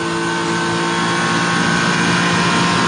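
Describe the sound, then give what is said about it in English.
Race car engine on the Conrod Straight at wide open throttle, a loud, continuous, even roar with a steady tone that holds level for three seconds, with no clear lift or blip. “we'll stay with him and just listen for whether he comes out of the throttle here.”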